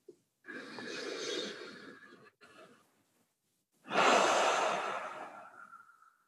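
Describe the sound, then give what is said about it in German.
Deep breath in and out during a guided calming exercise: a long, soft airy inhale, a short pause, then a louder, longer sighing exhale that tails off alone. “Und lass die Hand wieder sinken. Atme tief durch.”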